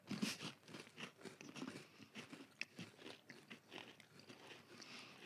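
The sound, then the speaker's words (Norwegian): Someone bites into and chews a crunchy store-bought gingerbread cookie: many crisp, brittle crunches in an irregular rhythm, faint and close, with no talk. “jeg av syns faktisk den var veldig sprø til å være kjøpe pepperkake”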